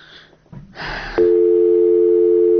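A telephone line tone sounds on a call that has not connected: a brief burst of noise is followed by a loud, steady, unbroken hum that holds to the end.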